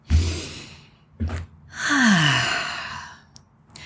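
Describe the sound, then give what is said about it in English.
A deep breath: two short breaths, then a long, audible sighing exhale with a voiced tone that falls in pitch, heard alone without talk. “Let's take a breath.”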